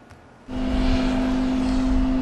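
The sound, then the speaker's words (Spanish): An airplane arriving in Costa Rica, its engine drone cutting in after a quiet moment and holding as a loud, steady roar with a strong low hum. “A bordo de este avión arribaron a Costa Rica 135 migrantes procedentes de Estados Unidos, todos de origen asiático”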